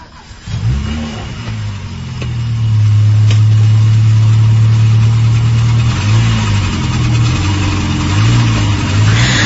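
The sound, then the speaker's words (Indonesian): A car engine accelerates as the driver steps on the gas on quiet city streets in Bandung at night. The engine rises in pitch, holds a loud steady drone, then swells and dips in several wavering revs. “aku pun langsung masuk ke dalam mobil dan menancap gas mobilku menyusuri jalanan kota Bandung yang cukup sepi saat itu.”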